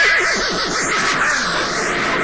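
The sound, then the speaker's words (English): A horse lets out one loud whinny, a wavering, quivering call that trembles rapidly and slides lower as it fades over a steady background hiss. “A neighing horse.”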